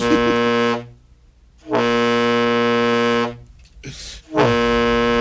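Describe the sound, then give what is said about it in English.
A voice imitates a foghorn-like fart with three long, low, steady droning blasts, each loud and held, separated by pauses and a sharp breath before the last one, which runs to the end. “Mine are quite foghorn like anyway. So I'm kind of used to it. Are you boasting now? No, I'm just saying. What do they sound like again? They sound like this.”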